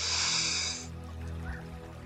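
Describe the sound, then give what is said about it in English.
A deep breath drawn in through the nose during a guided tension-and-relaxation breathing exercise. One loud, rushing, snore-like intake lasts under a second, then gives way to a soft, low hiss. “Breathe in. Breathe in as much as you can.”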